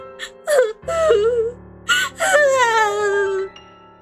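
A woman cries in a drama scene, letting out a few drawn-out, wavering wails and moaning sobs broken by short gasping breaths, loud and alone.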